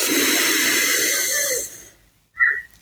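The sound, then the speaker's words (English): A deep breath in through the nose and out through the mouth gives a loud, steady rush of air lasting under two seconds before it stops. After a moment of silence, a brief soft puff follows. “breathing in through our nose, filling up your lungs nice and full, and out through your mouth. Let's do another breath in together”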